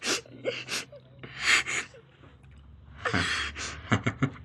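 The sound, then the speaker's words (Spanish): A woman crying and sobbing, with gasping breaths and whimpering bursts broken by short pauses. It ends in a few quick, shaky catches of breath. “¿Todavía no te has cansado de llorar?”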